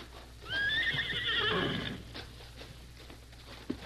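A horse pulling an open buckboard wagon gives a single loud, wavering whinny lasting about a second and a half, followed by a few faint hoof knocks.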